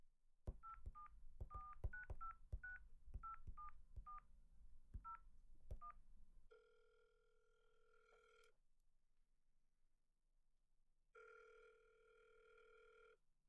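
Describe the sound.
A touch-tone telephone dials a call: a rapid series of short, bright keypad beeps in uneven groups, then two long, steady ringback tones separated by a gap of silence. No voices.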